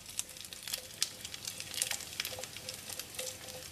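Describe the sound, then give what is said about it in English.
Lap cheong Chinese sausage sizzles in a pan over medium-high heat while cooking for lo bak gou turnip cake: a soft, steady frying hiss with scattered tiny crackles and pops, quiet and with no talk. “going to fry this on like medium-high heat for about a minute. And then I'm going to add in the dried shrimp and mushrooms. I'm just putting the lap cheong in first because it needs a bit of a longer cooking time than the other two.”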